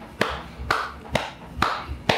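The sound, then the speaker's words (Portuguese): Hands clap five times in a slow, even rhythm, each clap sharp and distinct with a short gap of quiet between. “Bato palma para você, parabéns.”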